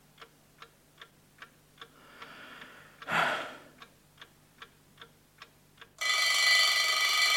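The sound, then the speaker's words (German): An alarm clock on a bedside table ticks in a steady, even rhythm, broken once by a brief breathy rush, then its alarm erupts into a loud, continuous, high metallic ringing that lasts to the end. “Es war gekommen. Es war der Wecker auf dem Nachttischchen. Auf ihn hatte ich gewartet.”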